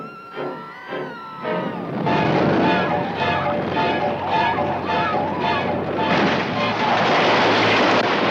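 A roller coaster ride in a Universal movie trailer opens with wavering, wailing tones, then from about two seconds a loud, sustained rumbling roar takes over and carries on to the end.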